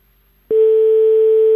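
Telephone ringback tone on a French line as a call goes through: one steady, unbroken mid-pitched tone starts after about half a second of near silence and holds loud to the end.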